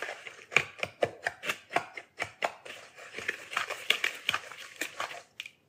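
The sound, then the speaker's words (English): Loud, rhythmic scraping and clattering from a Dutch whisk mixing one cup of packed brown sugar, with many quick, steady strokes that stop briefly near the end. “Okay, so I have 1 cup of packed brown sugar. And we're going to mix this. I'm going to use my beautiful Dutch whisk here.”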